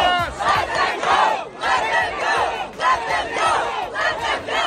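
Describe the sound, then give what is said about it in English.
Protesters chant in unison at a pro-Palestine campus protest at UT Austin, a crowd of voices shouting rhythmic, repeated phrases in loud, steady waves with short pauses between lines. “Those were protesters you just heard at UT Austin protesting in favor of Palestine”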